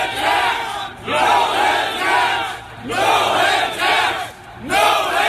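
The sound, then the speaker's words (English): Construction workers chant loudly to drown out a speaker, their massed voices rising and falling in steady, repeated swells that keep going the whole time. “You can say exactly what you think, but rather than chanting against each other, let's hear each other.”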